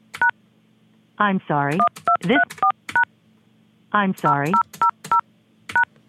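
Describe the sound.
Touch-tone keypad beeps enter a voicemail password on a cell phone: two runs of short, crisp dual-tone presses, with a voice speaking between the runs.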